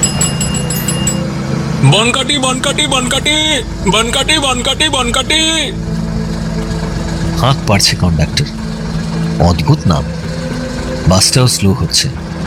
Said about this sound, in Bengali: দুটো দরজাতেই যাত্রী জমা হয়েছে কিছু, থেমে গেল বাসটা।